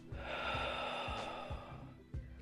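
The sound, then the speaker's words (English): Soft, airy breaths in and out during a guided relaxation exercise, quiet and repeated over a faint, steady tonal background. “Now I want you to breathe in and out.”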